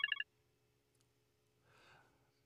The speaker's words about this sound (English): And oh, we got a we got a caller calling in.